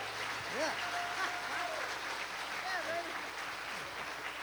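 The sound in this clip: An audience claps to welcome a performer from Hanover, Pennsylvania, as a group's MC introduces him. The applause is steady and fairly faint, with some voices mixed in.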